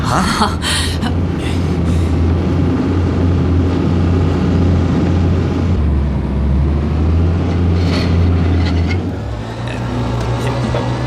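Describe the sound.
Motor hum of an underwater vessel steered with a control stick: a loud, steady low drone that shifts pitch in distinct steps, dropping partway through and then rising near the end, with a few brief clicks at the start.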